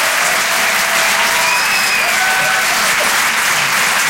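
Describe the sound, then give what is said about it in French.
An audience at a comedy club show applauds and cheers a comedian after his set. Loud, dense clapping continues steadily throughout. “Faites du bruit, s'il vous plaît, pour Nikos sur les chansons. Bravo, Nikos.”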